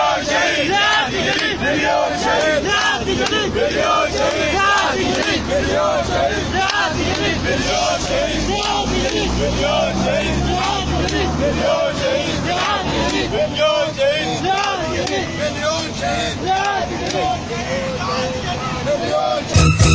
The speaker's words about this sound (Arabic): شيع زوي الشهيد صالح عبد الوهاب جثمانه في وقت متأخر من ليلة الأربعاء وسط هتافات تندد بجهاز الأمن وهتف المشيعون قائلين